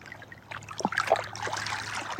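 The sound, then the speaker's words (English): Small waves lap against ancient rock in soft, irregular splashes and trickles, faint and continuous, with no voices. “Just like the sound of these little waves”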